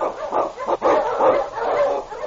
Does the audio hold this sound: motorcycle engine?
no